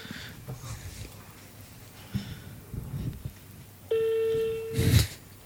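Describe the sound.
A single steady ringback tone of a telephone call ringing out, lasting about a second after quiet rustling and breathing, followed by a short burst of noise.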